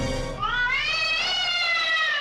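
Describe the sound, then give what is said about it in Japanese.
A stray cat gives one long, drawn-out meow, rising in pitch and then easing slightly downward, loud and alone for about two seconds. “そこにはなんと野良猫が。”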